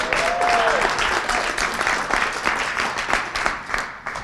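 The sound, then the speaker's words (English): Audience applause and clapping at a church worship service welcoming a speaker: a continuous wash of many hands that stays fairly level and eases slightly toward the end. “Come on, put your hands together. Let's welcome Jessi as she comes.”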